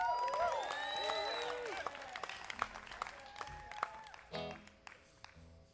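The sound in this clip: A crowd applauds and cheers to welcome a performer on stage at the Sunday closing ceremony of a disc golf festival. The dense clapping runs steadily throughout, with scattered sharp claps standing out.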